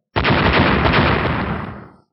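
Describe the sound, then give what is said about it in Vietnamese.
A loud explosive blast effect for a martial-arts fight with clashing fists. It bursts in abruptly, roars as one dense, continuous rumble for about two seconds, then fades out. “Ba tiếng nổ mạnh liên tiếp truyền ra, sau đó lại là từng đợt âm thanh răng rắc thanh thúy như tiếng băng phong bạo liệt.”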